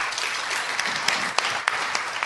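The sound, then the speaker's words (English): Audience applause welcoming an author at a literary reading event: steady, dense clapping with a few sharper claps standing out, no voices over it. “The person who gave the applause.”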